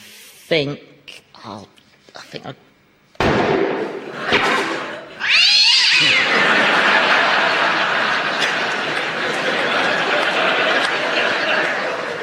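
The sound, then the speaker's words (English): A cat in a theatre meowing loudly, with a drawn-out cry that rises in pitch, followed by sustained loud noise; people talk in the first few seconds before the cat. “I'm sorry, but that cat was really getting on my nerves. It's a theatre cat.”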